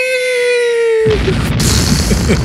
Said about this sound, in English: Truth bomb time. Yes, indeed. Truth bomb. If I can find the sound effect, I'll have the little cartoon.